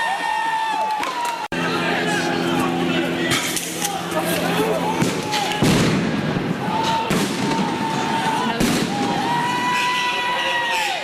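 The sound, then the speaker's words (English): Police flashbang grenades going off: a few sharp, booming bangs cut through continuous crowd noise and chatter. “Police are setting off flashbangs.”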